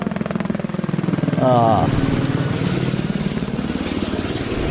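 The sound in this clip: Motorcycle engines at the Mountain of Hell race in the French Alps in 2019 make a loud, steady buzzing drone that holds for the whole stretch.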